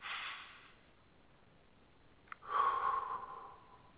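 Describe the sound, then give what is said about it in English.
A deep breath drawn softly in through the nose, followed by a louder, longer airy exhale out through the mouth, calm and unhurried. “Let's take a couple of deep breaths. In through the nose, out through the mouth.”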